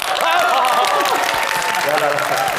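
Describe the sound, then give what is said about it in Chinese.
Applause from a gathering welcoming the chairman: dense, steady clapping holds for the whole stretch, with a voice and tonal sounds heard over it. “让我们用最隆重的掌声来欢迎董事长，为我们大家伙讲两句。”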